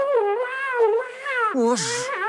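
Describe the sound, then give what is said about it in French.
A pet cat meows in a couple of long, wavering cries with gliding pitch, fairly loud and alone, ending in a harsher, noisier burst. “Sacha, mon chat, allez, viens. Mais qu'est-ce que tu fais là?”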